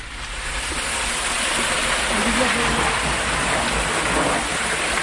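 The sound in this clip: Water flowing out of an underground gallery that feeds a reservoir about 1 km away, a loud, constant rushing wash that holds steady for the whole stretch.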